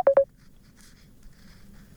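Two quick telephone keypad tones sound as a number is dialled for a Skype call, both loud and steady, before a near-silent stretch follows.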